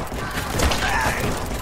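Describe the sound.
Gunfire in a video game shooter comes as a dense, crackling burst of shots with heavy thumps, loud and continuous throughout.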